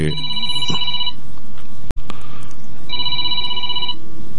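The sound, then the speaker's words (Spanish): A telephone rings with an incoming call: two electronic ring bursts separated by a pause, with a sharp click between them over a low background hiss. “Sí, entra una llamada con Yuri Reynoso.”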